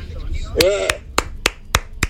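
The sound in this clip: Hand clapping, six sharp, slow, evenly spaced claps with quiet gaps between, a brief voice sounding over the first one.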